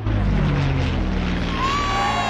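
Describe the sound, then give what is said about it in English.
A camouflaged Spitfire propeller plane flies low over a crowd decked with bunting, its engine a loud, steady droning roar throughout, with a thin high whine emerging near the end. “The pilot dips the camouflaged aircraft low over the lines of red, white and blue bunting.”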